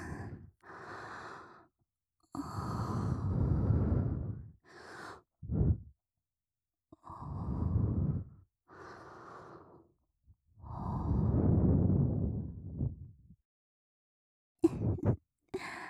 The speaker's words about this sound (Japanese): 耳に息を吹きかけられて